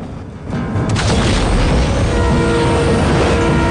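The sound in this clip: A train roars past a level crossing as cars break through the barrier just ahead of it. A heavy, loud rumbling rush swells in after a moment and holds steady.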